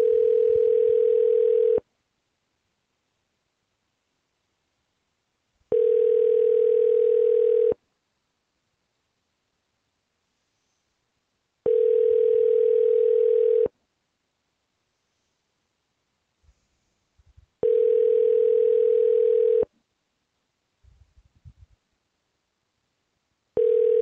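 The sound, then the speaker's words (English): A telephone line rings back while a call is being connected: a steady, mid-pitched tone that sounds for about two seconds, then pauses for about four, repeating several times. Faint rustling shows in a few of the gaps. “For Tim, please dial extension 102. Please hold while I try to connect you.”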